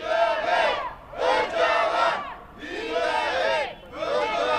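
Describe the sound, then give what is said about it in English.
Kurds protesting outside the summit venue in Brussels chant together in four loud, rhythmic phrases separated by short pauses. “Now that's the sound of Kurds protesting outside. The Kurds here object to concessions to Turkey.”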